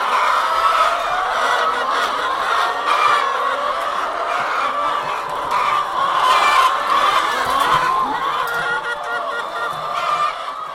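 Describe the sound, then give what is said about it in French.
Hens cluck in a dense, overlapping chorus inside a crowded henhouse full of laying poultry with eggs on the floor. The clucking is loud and continuous throughout, with no pauses between the birds' calls. “Quand on n'est jamais rentré dans un poulailler comme ça, c'est assez impressionnant.”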